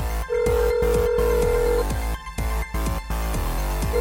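A telephone rings for an incoming call to a radio show: a steady electronic ring tone held for about a second and a half, returning briefly at the end, over rhythmic beats.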